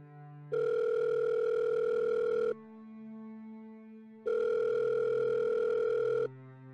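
Ringback tone of an outgoing telephone call: two long, steady, even-pitched tones of about two seconds each, separated by a quiet pause with a faint low hum.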